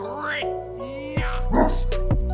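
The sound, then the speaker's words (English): A dog barks, giving a few short, yelping barks with bright harmonic tones that rise in loudness toward the end. “Ooh, he's barking on B. Hey, that bark was a nice little addition there.”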